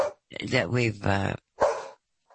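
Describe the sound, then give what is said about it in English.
A dog barks briefly amid someone talking, with a short sharp bark standing out after the voice. “see, the dog even agrees with me.”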